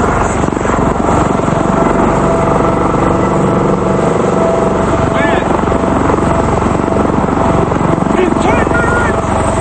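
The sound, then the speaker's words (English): Loud rotor thumping and engine whine of two military helicopters returning to a special forces hangar, a steady dense roar that continues unbroken through the whole clip. “Kelly is standing at the hangar as the two helicopters return.”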